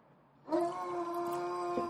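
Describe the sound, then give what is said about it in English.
A neighbor's dog howls outside: one long, sustained, steady-pitched tonal howl that begins after about half a second of quiet and holds to the end. “You hear our neighbor's dog out there.”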